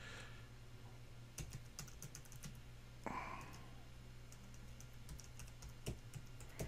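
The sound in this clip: Faint typing on a computer keyboard as an email subject line is entered: scattered soft key clicks with a few sharper strikes, no voices.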